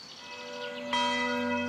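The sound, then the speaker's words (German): Church bells of the Cistercian mother abbey at Cîteaux ring for prayer. A sustained metallic hum is joined midway by a loud fresh strike that blooms into long, bright, resonant tones. “7-mal täglich rufen die Glocken von Citeaux, der Mutterkirche der Zisterzienser, zum Gebet.”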